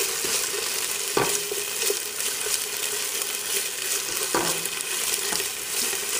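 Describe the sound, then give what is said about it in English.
Tomato paste with ginger and garlic frying in a pan while being stirred: a steady, even sizzle throughout, broken by a couple of sharp utensil knocks against the pan. “And I like to cook my tomato paste just until it's well blended and just changes the color just a little bit. It already smells really good in here with the ginger and the garlic and the tomato paste cooking.”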